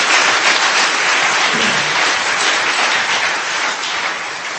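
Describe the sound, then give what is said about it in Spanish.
A church audience gives strong applause, a dense and even wash of many clapping hands that holds steady for the whole clip and eases slightly at the end. “den un aplauso fuerte, gloria a Dios, honre a los siervos de Dios.”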